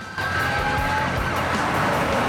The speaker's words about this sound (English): then pushes her foot down onto the accelerator.